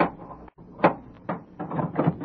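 A door at a home being opened: a few dull clunks and rattles of the latch and wood in quick succession, moderately loud, with no talk.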